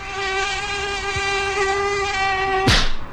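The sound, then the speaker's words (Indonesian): Aedes aegypti mosquito, striped and biting in daytime, gives a steady, high, thin buzzing whine throughout, cut off near the end by a sudden sharp burst. “nyamuknya ganas banget sih siang-siang gini. Belang-belang lagi warnanya. Nah, itu dia, nyamuk Aedes aegypti.”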